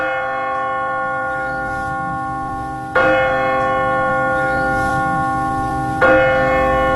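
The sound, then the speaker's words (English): The bell of St. Mark's church tolls in slow, evenly spaced strokes about three seconds apart. Each deep, rich strike rings on in long, overlapping resonance, heard alone with no voices. “The bell of St. Mark's.”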